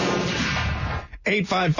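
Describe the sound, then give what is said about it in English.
A double-barrel shotgun fires in a loud, broad blast with a sustained rumbling tail that cuts off abruptly, followed straight away by a person talking. “There's then the Dick Cheney way, where you take the double barrel shotgun and you shoot it in your friend's face.”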